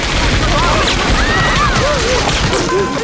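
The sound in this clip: A gunfire volley as people are ordered off a ship: dense, continuous shooting fills the whole clip at steady loudness, with shouting voices streaking over it.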